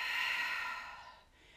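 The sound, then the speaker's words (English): A deep breath during a guided breathing exercise, drawn in through the nose and let out through the mouth, heard alone as one long, airy rush that starts loud and tapers off over about a second. “let's take a deep breath in through your nose and let it out your mouth”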